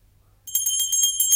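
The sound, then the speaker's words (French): Small hand bell rung rapidly by a character in a 1974 French stage production of a classical comedy, a bright, high tinkling that starts suddenly after a near-silent moment and jangles on unevenly. “Bah, ils n'entendent point et ma sonnette ne fait pas assez de bruit.”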